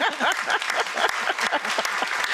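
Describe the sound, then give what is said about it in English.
Audience applause welcoming a guest at a history event: dense, steady clapping that fills the whole clip, with faint voices mixed in. “But welcome. We can clap for Christy.”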